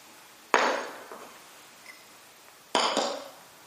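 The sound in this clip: Ceramic clinks as small plates and bowls are handled and set down: two distinct, fairly sharp knocks stand out, with a couple of fainter taps between them and quiet pauses around them.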